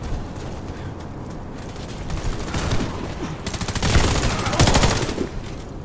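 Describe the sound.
Bursts of rapid automatic gunfire from a first-person shooter video game, loudest and densest in the second half, over a steady bed of game noise.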